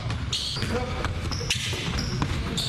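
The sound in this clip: Basketball thuds from a high school team's chest-pass drill: the ball smacks into hands and bounces on the floor again and again amid busy, continuous background noise and chatter.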